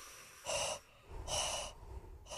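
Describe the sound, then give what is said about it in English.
A deep breath taken alone, heard as a few soft, airy rushes of air drawn in and pushed out, separated by short quiet pauses, with no talk. “Well, take a deep breath.”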